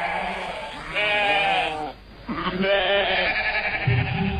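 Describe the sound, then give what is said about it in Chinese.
Sheep bleating in a flock on pastoral grassland as herders pick out an animal: loud, wavering, nasal bleats from several animals overlap, pausing briefly midway before more calls follow. “霍伊西拜爷孙俩开始挑羊。 在羊头攒动的羊群中一眼就挑出想要的那只，这并不容易。”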